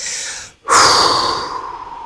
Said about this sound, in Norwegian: jeg puster inn, jeg puster ut.